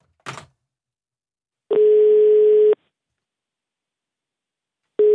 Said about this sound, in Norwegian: Flekk opp telefonen, okay.